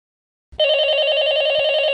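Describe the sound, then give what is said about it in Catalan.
A telephone rings with a call to the number of Ràdio Molins de Rei, a bright, steady electronic trill that starts abruptly after half a second of silence and carries on unbroken to the end. “Ai, que estan trucant el número de la ràdio. I ara a veure com agafo jo això.”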